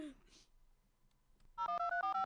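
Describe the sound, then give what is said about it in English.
Skype call ringing on an outgoing call to a phone: a loud electronic ring alternating between two steady pitches in a quick pattern, starting after a brief stretch of voice and quiet. “So we're calling a phone, so you might hear ringing.”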